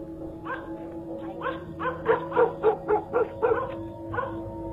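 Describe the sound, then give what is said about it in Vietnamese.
Dogs bark in a village: many sharp, mid-pitched yelping barks come in quick bursts, bunching loudest in the middle, over a steady low hum. “Cả làng có động, chó sủa lên ông ổng.”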